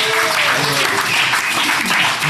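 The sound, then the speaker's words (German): Audience applause during a charity sponsorship segment in Bottrop: dense, steady clapping that holds at an even loudness throughout, with a few voices faintly beneath. “Komm, wir klatschen mal alle.”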